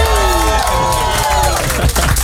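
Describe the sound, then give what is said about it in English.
A studio crowd at the Amsterdam Dance Event cheers and whoops loudly to welcome DJ Alan Walker, a continuous dense roar of excited voices and scattered clapping. “And who look who just walked in. Make some noise for Alan Walker.”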